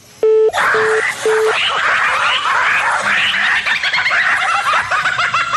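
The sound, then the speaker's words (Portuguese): A telephone tone after a dropped call: three short, identical beeps, followed by loud, overlapping talking voices. “Ah, a ligação caiu”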